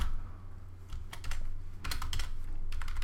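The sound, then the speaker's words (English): Typing on a computer keyboard: quick bursts of clicking keystrokes, with short pauses between the runs, over a low steady hum. “I'll go ahead and type that in because that's just application.”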